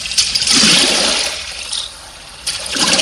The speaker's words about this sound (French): C'est des rames dans l'eau. Très bien. Une barque.